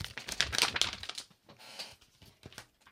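Index cards being handled, a dense papery rustle and crinkle that is loudest in the first second, then thins out into a few soft, scattered taps and flicks.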